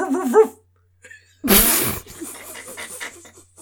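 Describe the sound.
A human voice imitating a dog bark, though meant as a revving motorcycle: a short yelping vocal sound, a pause, then a harsh, loud burst followed by quieter voiced noises.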